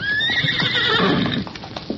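A branded ranch pony neighs in a long, high whinny lasting over a second, then settles into lower rumbling with clopping hooves, loud and without talk.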